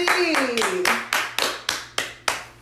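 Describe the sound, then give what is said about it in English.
Hand clapping as a round of applause in a casual conversation: a steady, evenly spaced run of many sharp claps, each with a short ringing tail. “First of all, round of applause.”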